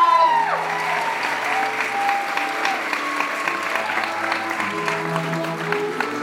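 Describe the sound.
Audience applause welcoming a speaker onto the stage: a dense, steady wash of many hands clapping that holds at an even loudness for about six seconds.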